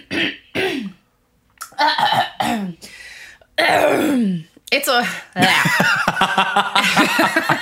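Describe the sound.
Throat clearing, several rough, throaty bursts mixed with short coughs, loud and close, separated by brief pauses.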